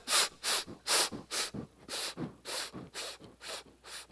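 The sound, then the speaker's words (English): Rapid, repeated breath intakes as a man lung-packs, filling his lungs beyond normal capacity before going down on a dive: many short, sharp hissing gulps in a steady rhythm, with no talking. “a thing called lung packing. And basically it looks like this: as he takes his breath, he lays back with his eyes shut”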